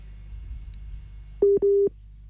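Telephone busy tone after a dropped call: two short, steady mid-pitched beeps in quick succession, the second a little longer, over a faint low hum.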